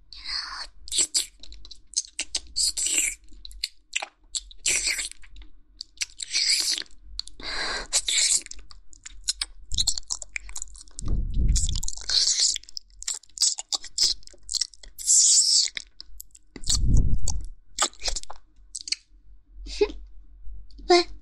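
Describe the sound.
Wet licking and mouth-clicking sounds on the sole of a shoe: many small, irregular smacking clicks running throughout, with a couple of lower, fuller swells partway through.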